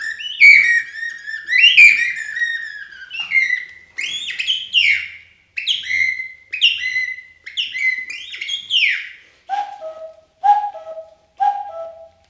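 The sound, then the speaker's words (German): Whistled birdsong, apparently a human imitation of the first birds at dawn, performed on a stage: many bright, quick chirps and rising and falling trills, then three lower, steadier whistled notes at the end. “Dann wird's langsam hell. Die ersten Vögel.”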